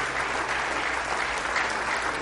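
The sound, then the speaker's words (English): A church audience clapping in praise during a service, a steady, dense wash of applause that holds even from start to finish. “Let's give the Lord a good hand clap of praise this morning.”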